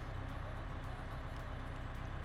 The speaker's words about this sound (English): God, this bus really is aggressively loud.